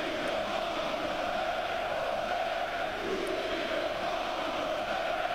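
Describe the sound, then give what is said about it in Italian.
A football crowd in Athens chants in a continuous, steady mass of voices that forms a dense, unbroken roar from start to finish. “Sto cercando di capire cosa sta dicendo il pubblico di Atene. È un po' un'impresa disperata, ovviamente. Conosci il greco?”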